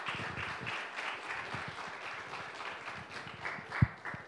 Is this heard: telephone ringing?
no